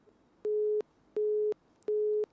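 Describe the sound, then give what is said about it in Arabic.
A telephone busy tone follows a disconnected call: three evenly spaced, steady low-mid beeps, each under half a second, separated by short silent gaps, fairly faint and alone. “فصلت المكالمة، يلا.”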